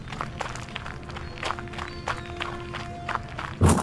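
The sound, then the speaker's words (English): Hurried footsteps of people running away, many quick footfalls in a steady rapid rhythm, moderately loud, ending with a heavier thump. “Run! Bring that back here! Keep running till we're almost at the parking lot.”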